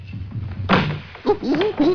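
A heavy thud as someone slips and falls on slippery stairs: one sharp impact, then vocal sounds that rise and fall.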